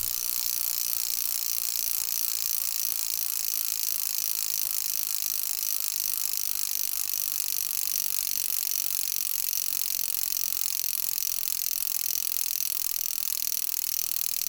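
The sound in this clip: A car jack ratcheting at a lifting point near a tyre: a continuous, fast, even stream of dry metallic clicks at steady loudness throughout, with no voices.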